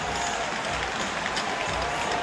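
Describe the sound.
Hockey arena crowd roaring during a fight on the ice, a steady broad wash of massed voices and cheering that holds at an even level without pauses.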